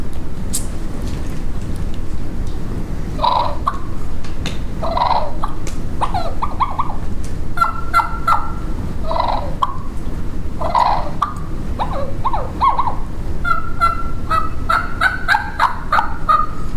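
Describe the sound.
Soft turkey clucks and purrs come from a light two-reed bat wing call: many short, gentle clucks and rolling purrs in repeated bursts over a steady background hiss.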